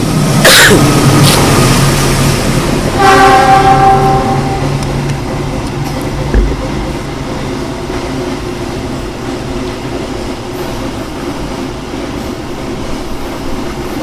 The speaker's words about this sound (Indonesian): Jadi kereta barang kalau ini nih, ya kan? Lebih panjang kereta barang gitu.